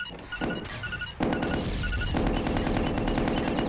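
Gunfire during a battle aimed at an enemy gun position: a sustained, rattling barrage of rapid shots that turns heavier and denser partway through, with no voices.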